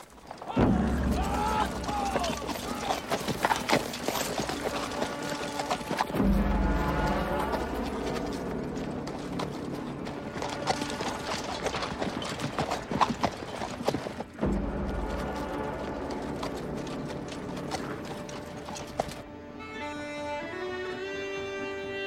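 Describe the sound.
A cavalry charge of galloping horses makes a dense, continuous drumming of hoofbeats, loud throughout, with sustained musical tones emerging near the end.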